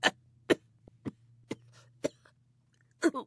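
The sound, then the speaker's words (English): A voice imitates a hacking hairball cough: six sharp, rasping coughs spaced across a quiet stretch, each short and separate, with a low steady hum underneath. “Hairball. Excuse me.”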